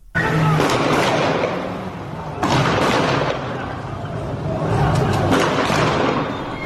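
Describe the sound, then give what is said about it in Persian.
Bursts of machine-gun fire in the streets of Iranshahr, Iran: a few dense, rattling volleys that start sharply and trail off, loud over a rough, noisy street background. “رگبار مسلسل ها، رگبار گلوله هایی که به سوی مردم شلیک شده منتشر شده، در ویدیوهای مختلف ما صدا رو میشنویم از ایران شهر.”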